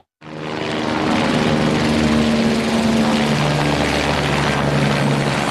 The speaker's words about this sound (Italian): hanno fatto l'abitudine a questo rumore. Sono i motori degli elicotteri e dei Canadair che prelevano acqua dal lago e la scaricano sui fronti